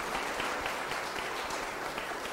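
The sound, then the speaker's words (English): Audience applause for a group of kids, a dense, steady wash of clapping hands lasting the whole short clip without any talk over it. “give a big round of applause for these kids.”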